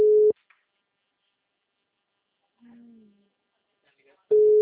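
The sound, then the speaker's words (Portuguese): Telephone busy signal: two short, steady beeps, one at the start and one at the end, with a faint gliding tone between them and near-silence otherwise. “Tá chamando. O telefone encontra-se ocupado.”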